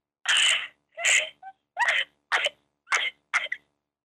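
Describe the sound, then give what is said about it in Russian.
Crying in short, broken bursts: a series of strained, breathy sobs and whimpers separated by brief silent pauses, with no other sounds around them. “Да ладно, хорош плакать, всё.”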